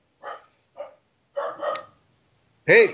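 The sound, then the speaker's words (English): Dogs bark in the background in a handful of short, sharp woofs spaced irregularly, the last one loudest. “Please excuse the dogs barking in the background, if you can hear me.”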